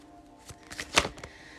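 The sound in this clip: Tarot cards drawn from a deck, producing brief papery rustles and a few crisp card snaps, the sharpest one standing out in the middle, with no talking.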